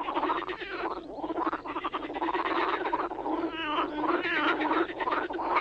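Frogs croaking in a pond, a dense, continuous run of rasping croaks and trills that stays loud and unbroken for the whole stretch, with no voices.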